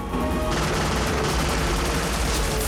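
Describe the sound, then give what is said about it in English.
Rapid gunfire from pirates' guns aimed at a rowed life raft near a shoreline, a dense, continuous, loud crackle of shots with no clear gaps between them. “As Quinn continues to row, two of the pirates line up their guns and fire.”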